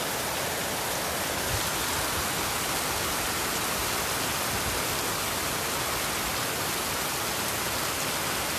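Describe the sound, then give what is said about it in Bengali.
Heavy rain pours down with only light wind, making a dense, constant, loud hiss with no breaks or changes throughout. “বৃষ্টির শব্দ প্রবল, বাতাস নেই তেমন না, হালকা। বৃষ্টির শব্দটা খুব মানে উপভোগ করার মতো।”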